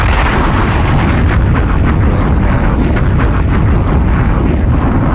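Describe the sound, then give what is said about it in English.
Bomb explosions: loud, continuous rumbling blasts with overlapping bursts that merge into one heavy roar, holding at a constant, intense level without any quiet gap. “Bombs!”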